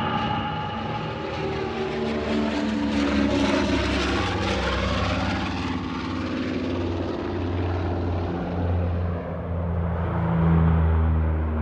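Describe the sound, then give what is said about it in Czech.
Propeller airplane engines drone at Tempelhof airport in West Berlin in 1955, a loud and steady roar with layered low harmonic hum that holds throughout and swells slightly near the end. “Západní Berlín, letiště Tempelhof, září 1955.”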